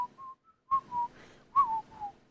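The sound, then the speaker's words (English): A person whistles a soft, short tune of several clear notes, each held briefly with small dips in pitch, alone with no talk. “That's me whistling past the graveyard.”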